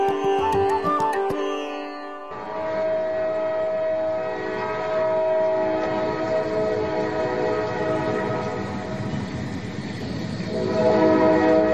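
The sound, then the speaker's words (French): A train arrives at Union Station in Toronto, its horn sounding sustained tones over a loud, steady rumble of railcars that swells toward the end. “Et oui, madame, monsieur, en direct de la gare Union Toronto. Le train est en gare, le train est à l'heure”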